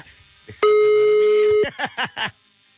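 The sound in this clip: A single steady mid-pitched telephone tone lasting about a second while a call is redialed, cut off abruptly and followed by a few short bursts of talk.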